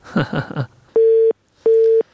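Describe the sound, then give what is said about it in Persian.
A telephone busy tone sounds after a dropped call: two even pulses of a steady mid-pitched tone separated by a short silence, following a brief burst of voice. “متاسفانه تماس خواهر ما قطع شد”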